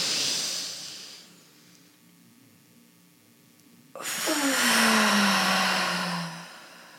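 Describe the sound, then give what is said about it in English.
A deep inhale from someone smoking and relaxing. A faint airy hiss gives way to a quiet stretch, then a long, loud, breathy rush with a falling tone that fades out. “Now so I'm just gonna smoke and relax. Okay. So let's do a deep inhale.”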